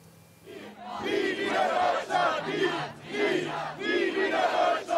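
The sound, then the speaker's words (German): A large crowd of about 750 demonstrators marching through Bremen's Neustadt district chants loudly in rhythmic, repeated surges of many voices, with brief dips between shouted phrases. “Rund 750 Menschen ziehen aktuell laut Polizei durch die Bremer Neustadt.”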